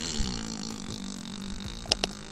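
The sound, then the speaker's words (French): A very long fart sound effect from the video game Undertale: a continuous low, buzzy rasp that holds for over two seconds, ending with two brief sharp bursts. “Non, non, c'est un énorme pet qui dure très très longtemps.”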